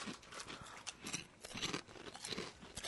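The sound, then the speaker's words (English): Crunching of spicy kettle-cooked potato chips as they are bitten and chewed: many crisp, dry crunches in an uneven rhythm, fairly loud, with no talk. “Yeah, because the kettle chip offers a superior crunch.”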